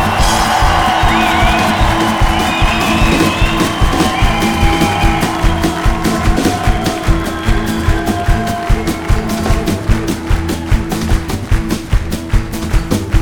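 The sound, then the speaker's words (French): Audience cheering and whooping in an ovation for the drummer at a live show, loud shouts riding over a steady, pounding drum beat and sustained low bass tones. “Messieurs dames, ce soir, à la batterie, je vous demande de lui faire un triomphe, une ovation pour monsieur Alexandre Mailleux, s'il vous plaît.”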